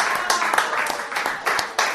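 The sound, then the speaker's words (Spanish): A brief burst of audience applause for the author at a book launch, with dense clapping and a few sharper claps standing out across two seconds. “Le doy un aplauso para el autor, para el doctor Franco Maravilloso,”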